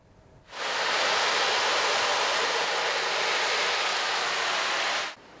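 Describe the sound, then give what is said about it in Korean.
Summer sea waves are played to fill a temple hall during a lying-down meditation session. The surf is a broad, even rushing wash that begins abruptly, holds steady and then cuts off shortly before the end. “시원한 여름 바다의 파도 소리가 법당 안을 가득 채웁니다.”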